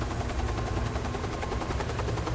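A helicopter flies overhead, its rotor making a loud, steady, rapid chopping pulse that continues without a break over a dense roar, with no voices.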